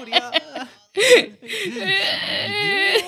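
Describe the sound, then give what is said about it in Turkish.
A baby cries in fretful, wavering, high-pitched whimpers that come in uneven bursts, while an adult talks. “Niye ağlıyorsun sanki? Ha? Niye? Seni gidi seni. Niye? Ha? Niye?”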